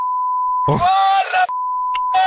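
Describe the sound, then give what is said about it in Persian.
A censor beep sounds as a steady, high-pitched electronic tone, cut off twice by short bursts of a voice speaking, then returning each time at the same even pitch. “من باید کل این گزارشو بیپ بذارم”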